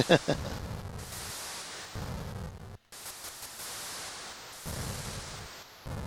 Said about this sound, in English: So this is Missile Command Arcade was the example one that I played.